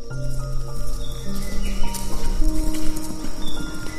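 Quick clip-clop of unicorn hooves trotting briskly through a forest, a steady loud patter with birds chirping over it.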